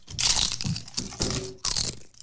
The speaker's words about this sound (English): All right, that's fair taste. This is strawberry. Yeah, strawberry.